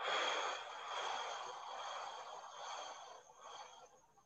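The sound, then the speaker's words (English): Breath during a guided breathing exercise: one long, airy stream of breath, soft and steady, that gradually thins and fades toward the end, with no other voices. “And again, inhale. Stop. Exhale.”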